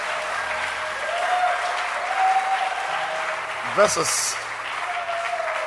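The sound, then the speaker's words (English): A church audience claps hands in steady, sustained applause. A voice speaks over the clapping, and near the end there is a short squeaky accent. “Look forward to a blessing. God is going to bless you. Amen. Clap your hands.”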